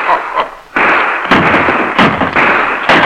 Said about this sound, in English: He could see nothing. The firing was coming from the forward end of the steamer.